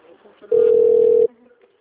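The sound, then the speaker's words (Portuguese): A telephone ringing tone sounds while a call is transferred on a customer service line: a single steady, mid-pitched tone lasts under a second, with faint voices murmuring before and after. “Vou transferir sua ligação.”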